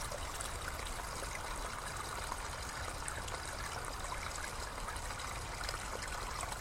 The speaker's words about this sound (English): There's something so relaxing about listening to water running like this.